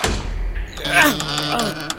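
A heavy, thick church door moves with a low thudding rumble, and a drawn-out groaning tone runs across the middle of the sound before it settles.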